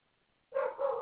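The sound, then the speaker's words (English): A dog barks in two sharp, loud harmonic bursts that break in after a near-silent opening, with nothing else audible. “I wish this dog would shut the hell up. Hey, shut up! God damn it, I can't stand animals that just nonstop bark and yelp”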